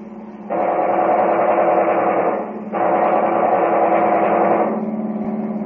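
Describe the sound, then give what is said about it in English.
Machine gun firing from a passing car: two long, loud, dense rattling bursts of about two seconds each, run almost back to back, followed by a lower steady hum. “Hey, look. That car there. There's a machine gun.”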